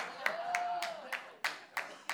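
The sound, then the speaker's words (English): Scattered handclaps from a comedy show audience: seven separate, quiet claps spaced fairly evenly, with no full applause building up. “I know y'all clapping for Dave and not me, so I get it.”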